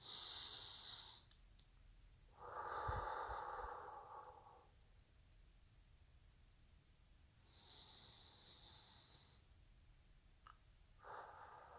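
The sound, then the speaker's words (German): Slow, deep breaths during a guided relaxation: a few long, soft inhales and exhales with quiet pauses between them. They are faint and heard alone, without talk. “Ich nehme noch einmal 2 bis 3 Atemzüge.”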